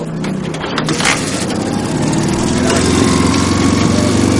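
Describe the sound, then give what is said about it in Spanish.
A motorcycle with a sidecar runs loudly and steadily in freezing wartime conditions, its rough chugging drone carrying a low throb from start to finish. “El cabo monta en una moto.”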